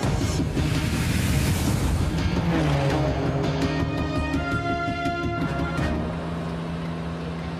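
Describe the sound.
Car tyres screech as a vehicle swings round a corner: a loud, dense roar gives way to a sustained high tonal squeal that holds for a few seconds, then drops to a quieter rumble.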